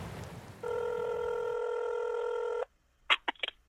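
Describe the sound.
A telephone call being placed: a steady line tone holds for about two seconds, then stops, and a few quick keypad dialing beeps follow after a short pause. No one talks.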